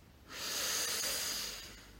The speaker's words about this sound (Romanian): Inspir profund și mă relaxez.